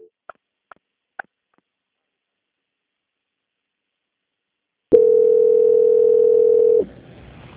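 Telephone tone during a call transfer: three short clicks, then one steady, loud sustained tone of about two seconds that stops abruptly and leaves a low hiss.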